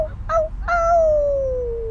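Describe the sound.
A person howling to call a group back, the voice imitating a canine howl: two short yelps, then a long wavering howl that slowly slides down in pitch over a low background rumble.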